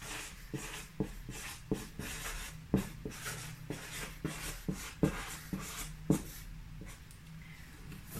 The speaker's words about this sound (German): Ich versuche ordentlich zu schreiben, damit ihr das auch lesen könnt.